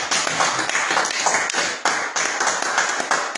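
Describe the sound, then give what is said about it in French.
An audience claps to acclaim God during a morning church service. Many sharp, rhythmic claps go on throughout, with a few stronger accents along the way. “Je voudrais que tu l'acclames encore ce matin.”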